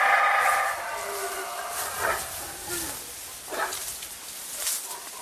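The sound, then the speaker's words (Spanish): Shrill, screeching creature cries make up a film dinosaur call for a venom-spitting Dilophosaurus, blended from howler monkey, hawk, rattlesnake and swan honk sounds. A strong harmonic wail opens it, then a few rising cries follow over a rough hissing bed. “ese cabroncete llamado Dilophosaurio, que escupía veneno, estaba hecho a través de la combinación de un mono aullador.”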